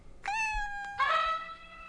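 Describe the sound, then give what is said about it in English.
A cat meows twice in long, drawn-out calls. The second meow is louder and stretches to the end, with no talk over it. “It's the cat.”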